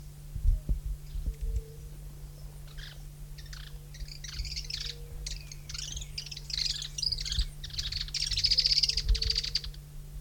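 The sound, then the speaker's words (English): Several birds calling, with many short, high chirps and twitters in scattered bursts that grow busier toward the end, fairly faint over a steady low hum and a few dull low thumps early on. “several birds present”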